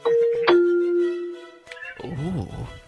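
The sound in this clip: A two-note electronic doorbell chime plays, a higher tone followed by a lower, longer sustained one. After a short gap, people talk and exclaim.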